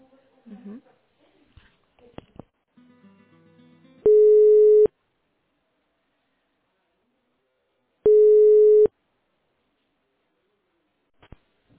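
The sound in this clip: Telephone ringback tone while a business call is being transferred: two long, steady, mid-pitched beeps of equal length, evenly spaced with silence between them, following a few brief faint sounds at the start.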